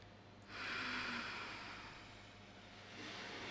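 A soft, airy inhale through the nose during a guided breathing exercise. It begins about half a second in, swells, then fades into quieter breath noise that rises again faintly near the end, with no talking.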